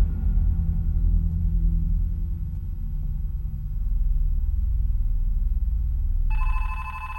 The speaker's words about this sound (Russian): На столе звонит телефон.